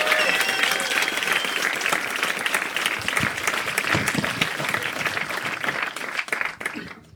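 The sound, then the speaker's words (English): Sustained audience applause for Big Daddy Kane, dense and loud clapping with a few sharper individual claps, thinning and fading away toward the end. “But let's get down to it. Big Daddy Kane, give him a round.”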